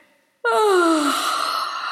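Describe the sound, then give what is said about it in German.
A deep yawn during a stretching and relaxation exercise, starting abruptly with a voiced tone that slides downward in pitch, then trailing into a long, loud, breathy exhale that eases off slightly by the end. “Ein tiefes Gähnen reichert dich mit ausreichend Sauerstoff an und lädt dich danach ein zum Entspannen.”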